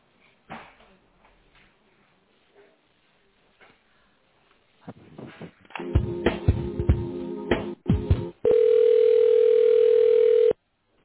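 A telephone line carries a call transfer: faint clicks and line noise, then a burst of handling clatter, then a steady, unbroken mid-pitched tone that holds for about two seconds before cutting off.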